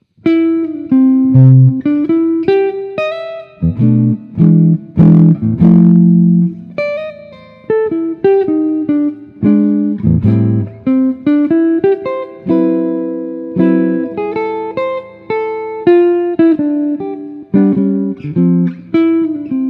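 Jazz recording of a standard, with a lead horn phrasing the melody over band accompaniment. It plays loud and steady throughout, with clearly articulated notes and short breaths between phrases.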